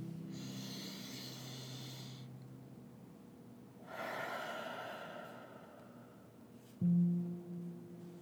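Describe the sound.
A deep breath taken during a guided prayer: two long, soft, airy breathing sounds separated by a quiet pause, gentle and unhurried, with no talk over them.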